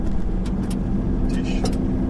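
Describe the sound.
A car driving along a road toward a radio astronomy observatory makes a steady low rumble of engine and road noise that runs unbroken throughout, with voices over it.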